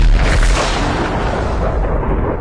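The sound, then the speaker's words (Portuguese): A huge explosion standing in for the Big Bang: a loud, deep, booming rumble that holds steady throughout, its upper hiss thinning slightly toward the end, with no voices. “foram sugando tanta coisa, até que chegou num ponto onde teve uma grande explosão, que foi o Big Bang”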